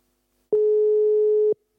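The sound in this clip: A telephone busy signal for a call that goes unanswered: a single steady low electronic tone lasting about a second, clean and even, with no talk.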